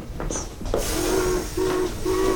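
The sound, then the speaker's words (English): A steam train at the Southern Pacific depot in Reno. Steam hisses steadily throughout, with a brief high whistle near the start and a low droning tone that repeats several times. “Smoke stepped down from the train that had rolled into the Southern Pacific Depot in Reno a minute or so earlier.”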